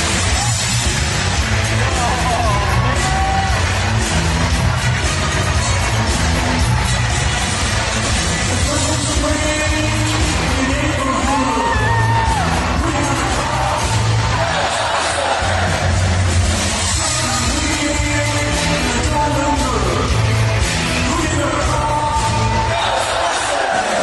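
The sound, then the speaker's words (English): A live concert audience sings along with a rock band, a loud, continuous mass of crowd voices blended with music throughout. “And that audience singing along is everything.”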